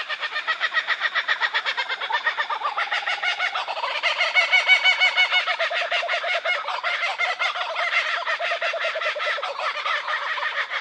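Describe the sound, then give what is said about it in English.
A group of four or five kookaburras calling together in their full laughter song: a loud, continuous chorus of rapid, rhythmic cackling hoots that thickens and grows louder midway, then carries on steadily to the end. “In this group that we're listening to here, there'd probably be four or five birds. It's sort of letting other kookaburras in the area know that this is their territory. So they get together, they have a bit of a chat, then they go into the full laughter song.”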